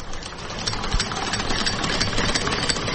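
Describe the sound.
A sewing machine used for tailoring at home, bought in Gujrat, runs with a steady, rapid mechanical whir and light clatter. No other sounds are heard.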